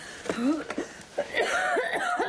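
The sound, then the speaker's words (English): A woman's bad cough out in the cold: a series of harsh, raspy bursts with throaty, voiced edges, several following one another in quick succession. “that's a terrible cough”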